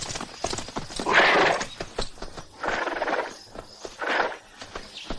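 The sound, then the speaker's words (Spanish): Hoofbeats of a horse ridden across open countryside in a 1978 adventure film, a quick run of sharp clops with a few louder surges of broad noise in between, heard alone without talk. “Curro sigue cabalgando mientras sus amigos lo esperan.”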